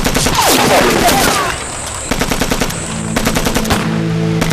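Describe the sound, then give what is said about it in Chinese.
Rapid gunfire from a Taisho Type 11 light machine gun, loud dense bursts rattling in two stretches separated by a short lull. “这是大正11式轻机枪”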